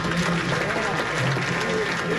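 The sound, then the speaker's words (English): An audience applauding at a town hall meeting, dense, continuous clapping across the whole clip with crowd voices mixed in. “And then he asks everybody to applaud for those people.”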